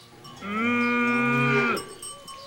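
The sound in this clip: A single long, steady moo from a cow on a farm, with a mother cow tending her calf nearby. The call is sustained and level in pitch, fairly loud, and heard alone with no talk.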